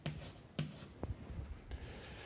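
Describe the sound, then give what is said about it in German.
Handwriting scratches as letters are written out during a maths explanation, faint short strokes in small bursts separated by brief quiet gaps. “ich schreibe mal das UW auf nochmal”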